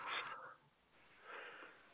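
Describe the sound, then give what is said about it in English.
A yawn from a person in conversation: a breathy, wheezy exhalation in two drawn-out stretches, fairly faint, with no talk over it. “A little bit of a yawn there.”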